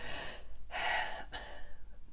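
A person takes a single short, quiet breath. The soft, airy intake comes alone in near silence, with a faint puff just after it.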